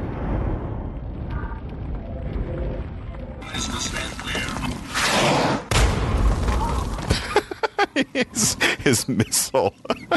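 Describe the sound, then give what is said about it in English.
Frag grenades explode in a video game, thrown three at a time, with several deep booming blasts among busy game effects and talk, ending in a rapid run of choppy bursts. “And I can chuck 3 frag grenades with 1 bat.”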